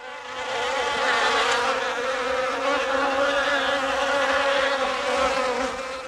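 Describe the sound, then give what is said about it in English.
A large swarm of stinging insects drones in a dense, unbroken buzz that rises at the start and holds loud and steady throughout, with no voices. “a large swarm of insects attack Jack, stinging and biting him repeatedly.”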